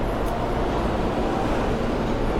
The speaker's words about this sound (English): I can't even look at the train as it pulls away.